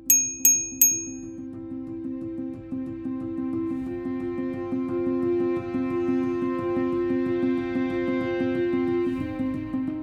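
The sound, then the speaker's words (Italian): A small bell rings three quick, bright, high strikes at the start, then gives way to a steady, low, humming tone that fills the rest. “Dieci ore, che a tutti parvero dieci secoli, ma alla fine la campanella suonò.”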